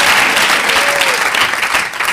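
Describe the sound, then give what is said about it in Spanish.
A church audience claps in sustained, dense applause that stays loud and even throughout. “Démosle un buen aplauso al Señor, hermano.”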